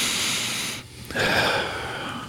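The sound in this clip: A deep breath is drawn in during a therapeutic breathing exercise, with hands resting on the lower ribs. The inhalation is loud and breathy, broken by a brief pause near the middle before the airflow resumes.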